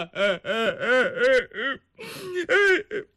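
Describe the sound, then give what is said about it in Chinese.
A storyteller's voice imitates an old man crying, with a rhythmic run of wavering, sobbing bursts, a short pause, then a few more strained wails. “他哭了。”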